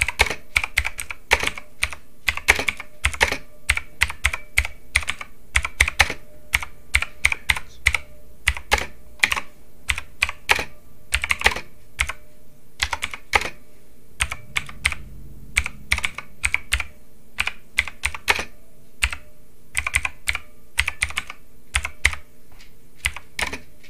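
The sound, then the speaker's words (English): Rapid typing on a computer keyboard, many sharp keystroke clicks in uneven bursts and runs with short pauses between, fairly loud and steady throughout, with no talking. “sorry that you're just hearing this typing”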